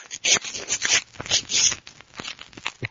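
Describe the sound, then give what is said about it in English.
Bed sheets being ripped apart by hand, heard as a run of loud, rough, scratchy tearing bursts in an irregular rhythm that continues for several seconds. “Now let's rip those sheets off the bed.”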